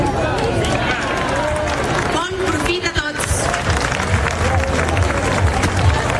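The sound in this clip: A festival crowd shouts together in a cheer to hail the spring festivities, a dense mass of voices with a stronger burst of shouting near the middle and steady crowd noise throughout.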